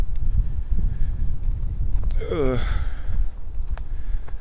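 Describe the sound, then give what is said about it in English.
Wind blows across a woodland hiking trail and buffets the microphone in a steady low rumble that runs throughout, with a brief gasp-like sound near the middle. “Okay, wind. Into the wind zone again.”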